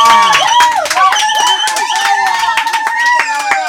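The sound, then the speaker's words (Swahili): Clapping and cheering from an audience at a Swahili-language gathering after a talk on types of business. Many quick, uneven claps run under sustained high vocal whoops and voices throughout. “Tumpigie makofi tena jamani.”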